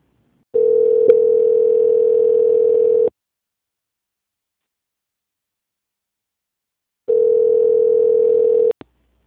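Two long, steady telephone tones play while a bank call is transferred to another line. The first lasts about two and a half seconds, a silent gap of roughly four seconds follows, and then a shorter second tone sounds, with no talk.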